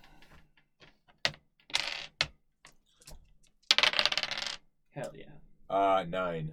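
Two six-sided dice clatter as they are rolled during a tabletop game, giving a quick run of many sharp clicks and rattles with short pauses, then a louder burst of tumbling.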